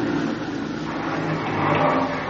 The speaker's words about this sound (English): Mud. The wheels won't hold. You're just digging it in deeper.